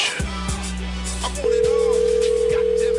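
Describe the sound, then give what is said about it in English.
A steady telephone tone as an outgoing call rings out. It starts partway through and holds one even pitch to the end, over a low hum with a few soft thumps before it. “We'll let this ring out, and I'll change my caller ID.”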